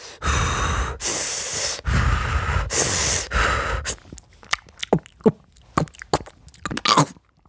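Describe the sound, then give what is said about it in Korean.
Someone eating grilled garaetteok rice cake and sweet potato: a few loud, breathy bursts of air, then scattered soft mouth clicks and chewing noises. “가래떡이랑 고구마 다 됐나 봐요, 여러분. 한번 먹어볼게요.”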